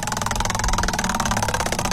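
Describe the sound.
A prize wheel spins during a birthday-matching cash giveaway game, its pointer ticking in a rapid, steady, even run of clicks at moderate volume with no talk over it.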